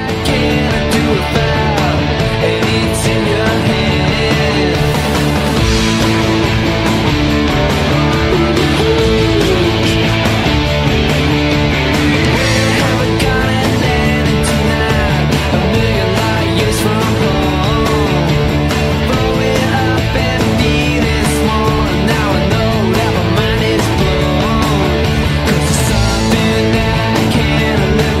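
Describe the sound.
A band's song from their second record plays loudly and continuously, a dense full mix of instruments that fills the whole stretch with no pauses or talk.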